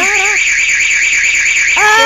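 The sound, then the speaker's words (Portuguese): An alarm goes off during a break-in attempt: a loud, continuous high electronic warble pulses rapidly throughout, with brief squealing sweeps at the start and end. “Tocou o alarme, ele saiu correndo, gente.”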